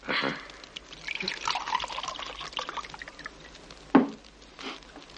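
Wine pours into a glass at a dinner table, a soft continuous trickle at low level, with one short louder tap near the end.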